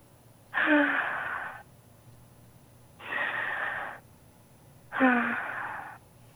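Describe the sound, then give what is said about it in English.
Deep breaths in and out: three long, airy breath sounds of roughly a second each, separated by short quiet pauses, heard alone without any talk. “Can you take a deep breath in and out? Inhale and exhale.”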